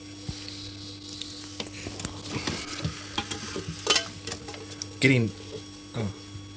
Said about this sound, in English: We're getting near the end. We're scraping our bowls.